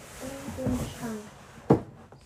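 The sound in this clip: A cardboard box is closed and pushed into place, a single sharp thud that follows a stretch of quiet talk, with faint room noise afterward.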